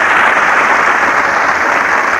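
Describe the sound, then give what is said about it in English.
Audience applause, a dense and steady wash of many hands clapping that holds at an even level throughout, with no voices on top. “You see, with any name, the applause is just the same.”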